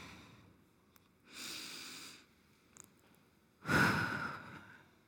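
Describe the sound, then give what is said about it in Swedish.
A group takes deep breaths together, heard as two long breathy swells separated by quiet gaps. The second swell is louder and longer than the first, and no one talks. “Jag tänkte att ni skulle få ta ett djupt andetag.”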